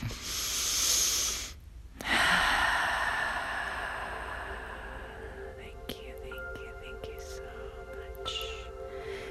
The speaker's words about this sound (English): Take a deep breath.